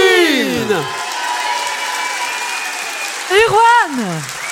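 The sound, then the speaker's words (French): Applause from a concert audience at a tenth-anniversary concert in Roanne: a steady, soft wash of clapping runs throughout, with voices rising over it at the start and again near the end. “Je vous demande un max d'applaudissements pour les, les frangines.”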